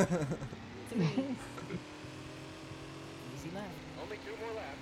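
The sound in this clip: Car engine in a racing video game, a steady low hum running under a person's talking throughout.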